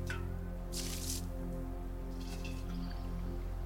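A wet garment is wrung out over a bowl, giving faint squishing and watery splashes in two short bursts against a quiet background.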